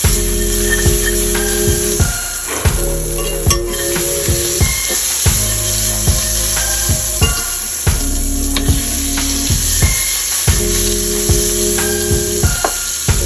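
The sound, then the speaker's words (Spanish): Half a stick of butter melting in a pan with a splash of olive oil makes a steady, loud sizzling hiss that runs throughout, with music playing underneath. “una pizca de aceite de oliva. Vamos a poner media barra de mantequilla a derretir.”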